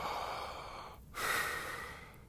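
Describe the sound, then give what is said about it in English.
Breathing through the mouth with the chin pulled back: a soft, airy rush of breath, a brief pause, then a second, slightly louder breath. “pull your chin back all the way, like double chin, like you're taking a photo, and just breathe through your mouth.”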